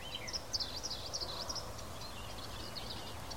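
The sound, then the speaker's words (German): Faint bird chirps and calls outdoors on a windy day, a few brief high twitters mostly in the first half, over a steady rush of wind noise. “Also es ist ein bisschen windig, aber ich hoffe, man kann trotzdem den Vogelgeräuschen lauschen.”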